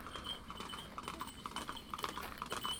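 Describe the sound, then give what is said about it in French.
Faint, irregular clip-clop of horse hooves as tourists ride horses, many soft hoof strikes over a steady background hiss. “Les touristes qui sont contents de se faire balader à cheval. Cheval qui trime.”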